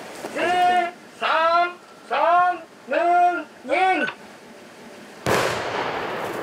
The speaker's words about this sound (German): Jedes Mal müssen sie das Gelände absperren, sicher gehen, dass keiner in der Nähe ist. Achtung, Achtung, wir sprengen jetzt.